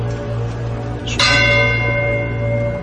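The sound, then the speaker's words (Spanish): A church bell rings out once, its strike blooming into a bright, sustained chime whose overtones hang and slowly decay over a low steady hum. “Fijaos que están sonando las campanadas ahora.”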